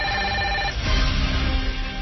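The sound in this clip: Telephone ringing on an outgoing call, a steady tonal ring at the start that gives way to a broad noisy hiss, with no voices.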